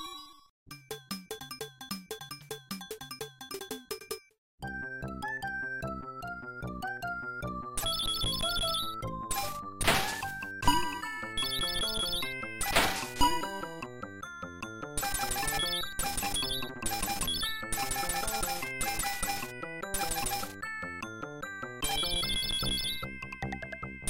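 Electronic bleeps and melodies from Insector X, a horizontal shoot 'em up arcade game, with a quick opening phrase, a brief gap, then dense layers of high chirps, beeps and tonal effects that continue throughout.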